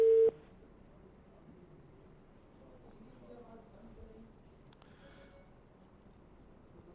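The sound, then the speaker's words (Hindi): A telephone tone after a dropped call-in to a radio health show: one short, loud electronic beep at the very start, followed by a faint, steady line hiss. “Call drop हो गई है।”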